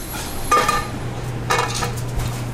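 Pots and pans handled at a stove before a quick mushroom sauté: two metallic clanks about a second apart over a steady low hum.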